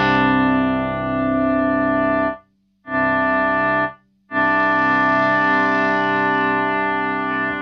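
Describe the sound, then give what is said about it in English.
A droning guitar chord swell from a Plus sustain effects pedal feeding straight into a Benson preamp, a rich, steady sustained tone that cuts out twice briefly near the middle before resuming, with no voices. “it starts off with the plus, which can make kind of like swelling droning noises, and it goes straight into the Benson preamp.”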